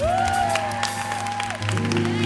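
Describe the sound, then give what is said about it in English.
A crowd at a gospel and roots choir concert at the Newport Folk Festival in 2014 applauds the instrumentalists, with dense, sustained clapping over lingering music. “You don't see the instrumentalists as much as you do the vocalists, but give them a big hand.”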